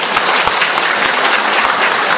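Audience applause at a Buddhist ordination ceremony, greeting a person ordained for the first time. The clapping is dense, steady and loud, with no pauses and no voices over it.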